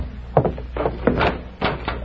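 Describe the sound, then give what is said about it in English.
A door opens with a few dull knocks and rattling clunks spread across the moment, over a low steady hum. “You open the door”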